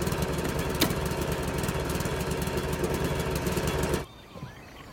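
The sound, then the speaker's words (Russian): A lawn mower engine runs with a loud, rough, steady chugging drone, then cuts out abruptly after about four seconds, leaving near silence. “Мужчина в темно-синем рабочем комбинезоне и кепке включает газонокосилку.”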